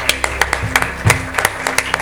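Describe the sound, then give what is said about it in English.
An audience gives a hand clap of praise: scattered, sharp claps arriving unevenly over a couple of seconds, moderately loud, with a low steady hum beneath. “Let's give Him another hand clap of praise.”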